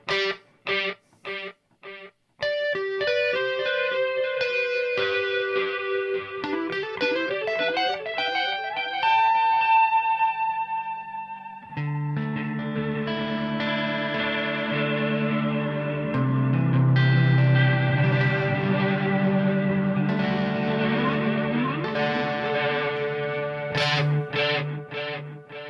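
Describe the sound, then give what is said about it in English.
Electric guitar runs through a Flashback 2 stereo delay pedal with the delay speed raised, giving lush, modulated repeats. Picked single notes trail into quick echoes, then sustained chords swell into a dense, shimmering wash, with no talking. “Let's bring up the speed a little bit of the delay.”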